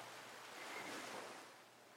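Faint, continuous surf from ocean waves washing onto a sandy beach, a soft hiss that swells gently in the middle and then eases off, with no voices.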